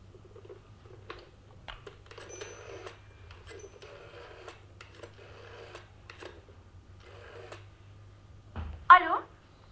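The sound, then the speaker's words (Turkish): A telephone being dialed in a staged drama scene: a series of short, quiet clicking runs separated by brief pauses, ending with a louder, sharper burst near the close. “İkinci Arthur Holmes'u arayalım bakalım.”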